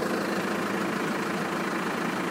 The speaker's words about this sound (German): So, jetzt wird gerade der dritte Bus eingefügt.